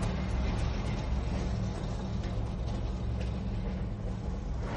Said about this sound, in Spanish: Un camión con volquete llega a un pueblo. Para junto a una valla de madera.